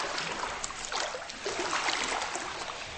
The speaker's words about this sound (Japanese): 山水館信濃へ行ってまいりました、うん、なんとなく硫黄系のぽってりとした香りが包まれるいいお湯なんですが、入ってみたらこんな感じ